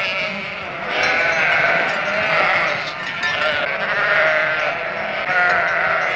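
Sheep bleating, kept by sellers in a village, with loud, overlapping bleats that swell and fade repeatedly throughout; no talk.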